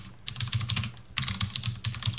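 Quiet, quick typing on a computer keyboard as a licence key is entered, with two bursts of rapid keystrokes separated by a short pause.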